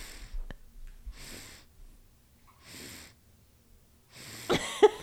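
A person breathes heavily on purpose: four slow, loud, rasping breaths separated by quiet pauses, the last ending in a short snorting sound.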